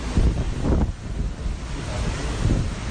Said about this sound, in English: I'm already getting sprayed with water. Maybe you can hear the water in the background.